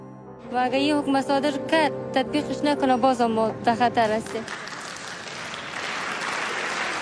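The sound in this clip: Audience applause at the women's film festival in Kabul: a voice speaks first, then steady clapping takes over and continues to the end.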